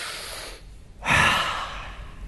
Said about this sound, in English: That's a gift, what you just did. A breath.